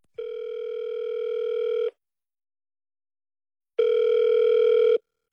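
Telephone line tone while a call connects: two steady, buzzy, harmonic-rich tone bursts, the first about two seconds long and the second shorter, separated by a stretch of silence, with no voices.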